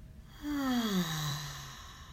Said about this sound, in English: And let's take a deep breath in. And exhale.